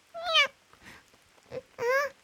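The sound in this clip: Cat meowing: two loud, drawn-out harmonic meows at the start and end, with a few softer, shorter cries between them.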